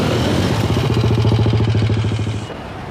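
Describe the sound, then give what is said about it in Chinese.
A car engine running before driving off: a loud, steady, throbbing low rumble with a rhythmic pulse, heard alone, that drops away sharply near the end. “别呀，我开车送你。”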